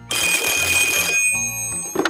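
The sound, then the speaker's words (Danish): The big red telephone rings with an incoming call in a Danish comedy radio studio. It gives a loud, continuous electric bell trill for about a second, then stops, while a steady tonal sound carries on afterward. “foran den store røde vidighedstelefon, der er klar til at tage imod opkald og vidigheder fra hele Danmark. Og der er allerede kø på linjen”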